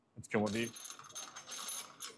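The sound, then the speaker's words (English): Metallic clinking and mechanical clatter as an assembly bridge is lifted off an engine cylinder head on an assembly line, a sharp burst of clanks followed by lighter, uneven rattling. “Now the day of cylinder head assembly is nearly complete. Now the bridge is being removed,”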